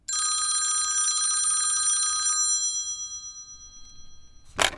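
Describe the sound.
A telephone rings with an incoming call, a bright, rapidly trilling bell that sounds continuously for about two seconds and then fades out, followed after a short silence by one sharp click.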